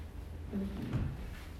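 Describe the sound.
A drawer is pulled open to fetch a black marker for a board: faint, brief sliding and knocking sounds over a quiet background, with no voices.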